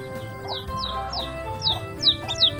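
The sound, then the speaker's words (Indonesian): Newly hatched chicks peep in a series of high, short, downward-sliding chirps at an irregular pace over a faint low background hum. “Nah, suara apa itu? Iya, betul. Anak ayam. Telur-telur itu menetas.”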